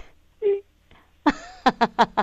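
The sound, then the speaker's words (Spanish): A woman cries, with faint breathy sounds at first, then a longer strained wail and four short, rhythmic, pitched sobbing bursts in quick succession. “No me digas que estás llorando”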